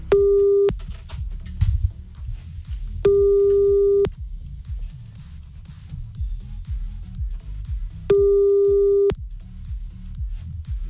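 A telephone busy signal sounds while a call is being redialled: three steady, mid-pitched tone bursts, each under a second long, separated by longer gaps over a continuous low rumbling background.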